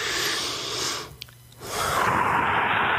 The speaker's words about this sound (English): And then you take a deep breath.